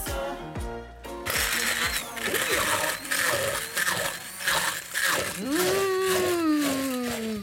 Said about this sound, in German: Wir pürieren also unsere grüne Tomatenpampe, um grünes Ketchup herzukriegen.